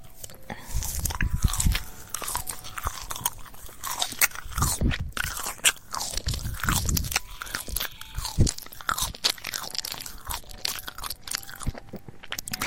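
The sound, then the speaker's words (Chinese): Chewing on marshmallows, with many close, soft bites and squishy, faintly crunchy mastication in a steady, continuous rhythm. “哥哥的零食我都要吃掉的，吃的一点都不剩，嘻嘻啊，好可爱的棉花糖啊”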